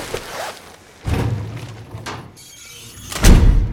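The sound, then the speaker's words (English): A body bag is zipped and a cadaver drawer is shut in an autopsy room. A short rasping sound comes first, then a sliding rumble and a final heavy thud, with no voices. “She quickly zips the body bag and shuts the cadaver drawer.”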